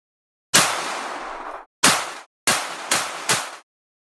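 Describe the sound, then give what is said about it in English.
Handgun shots from a played campaign ad video: five sharp bangs, each with a long decaying tail. The first rings longest, and the other four follow in quicker succession. “Shoots a couple of rounds and fumbles trying to get it back into his holster.”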